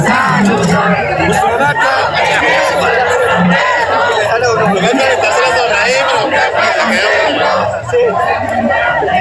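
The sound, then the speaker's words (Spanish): A crowd of people singing together at a packed, noisy gathering where drinks are served, a dense, continuous wall of loud voices and babble with no real pauses across the whole stretch. “Mira, acá la gente está cantando.”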